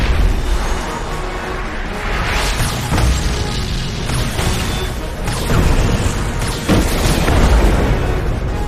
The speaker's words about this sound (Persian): پوششمون لو رفته، پس بهتره با یه انفجار جانانه